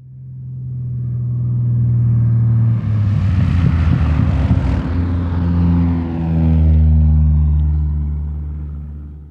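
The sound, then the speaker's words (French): Jet engines of an A320 drone loudly during a simulated departure from Nantes airport, played in a home-built flight simulator cockpit. A steady low hum runs throughout, and a rushing roar swells in the middle before easing off. “Elle présente le départ d'un vol de l'aéroport de Nantes dans leur superbe home cockpit. On peut y voir le fonctionnement de leur cockpit d'A320”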